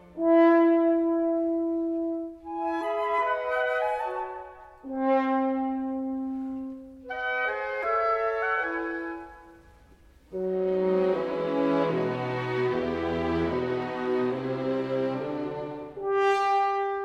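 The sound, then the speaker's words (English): Orchestral music from Antonín Dvořák's opera about the mermaid Rusalka: sustained melodic lines over held chords, a brief quieter dip, then a fuller, louder passage with rich low notes and dense harmonies. “And Antonín Dvořák wrote music about a mermaid named Rusalka. Dvořák's music sounds like this.”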